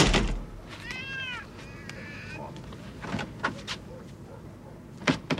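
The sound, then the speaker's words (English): A cat meowing: two clear, drawn-out meows in quick succession over low background noise, followed by a few scattered knocks and thumps. “Who let the cat out? We don't have a cat.”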